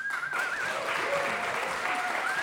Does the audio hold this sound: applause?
yes